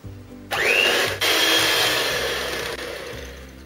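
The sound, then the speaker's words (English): An electric mixer beats butter and sugar in a mixing bowl. Its steady whirring motor starts after a short pause, dips briefly once and then runs on evenly with no talk. “In a mixing bowl, add in the butter and sugar. Beat this well.”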